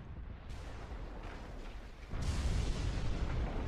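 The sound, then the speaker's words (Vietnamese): A booming explosion from a swirling vortex: a deep, broad rumbling roar that fills the whole stretch and swells noticeably louder partway through, with no voices. “Âm thanh nổ vang truyền đến từ vòng xoáy, truyền đến từ tàn tháp, truyền đến từ trong đầu Hứa Thanh.”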